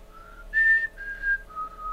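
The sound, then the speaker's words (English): Loud human whistling of a short tune that imitates a movie whistle, blown inside a store. A run of clear, sustained notes climbs to a high peak and then steps back down, with no talking. “So I went, which is the whistle from the movie, loud as I could in the store.”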